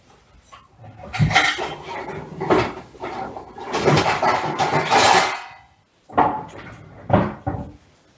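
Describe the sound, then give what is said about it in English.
Fried samosas are set onto a plate in a home kitchen with several soft knocks, scrapes and clatters of handling, coming in irregular bursts separated by brief pauses. “And now I'm putting it on a plate.”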